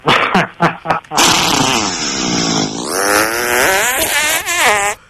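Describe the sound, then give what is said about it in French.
A voice imitates a fart after eating cassoulet: a few short sputters, then a long, loud, wavering buzz whose pitch bends up and down before it cuts off. “Ah ouais, j'ai envie de te péter à la gueule. Comme ça.”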